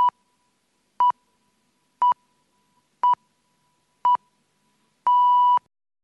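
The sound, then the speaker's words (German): A telephone time-announcement signal plays five short, evenly spaced mid-pitched beeps about a second apart, followed by one longer final tone of the same pitch marking the exact time. “Beim letzten Ton ist es 9.45 Uhr.”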